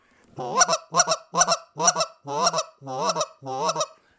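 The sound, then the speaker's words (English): A goose call blown in quick double clucks for hunting geese: seven short, sharp honking bursts in a steady, fast rhythm, loud and clear with no talk. “if they're clucking like crazy in the air, what we'll do is we'll hit them with quick double clucks”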